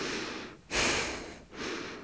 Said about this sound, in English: And gently starting your breath in and out through your nose.